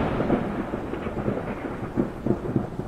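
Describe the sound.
Steady heavy rain with rumbling thunder, as a storm sound effect; the dense hiss and low rumble hold throughout, with a few louder swells near the end, and no voices.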